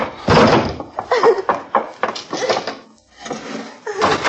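Loud banging on a door: a few heavy, irregular thumps and rattling blows with short gaps between them.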